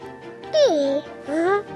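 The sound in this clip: A chubby baby babbles happily in two short voiced sing-song sounds, the first swooping downward in pitch and the second rising, fairly loud over a faint low hum.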